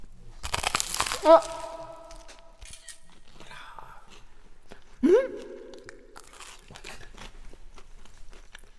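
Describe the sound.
Someone eats a croquette-like paste with sauce, making crunchy bites and soft, moist chewing noises, while people talk in between.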